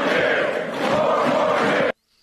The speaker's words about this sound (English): Let's forget the cheering for a second.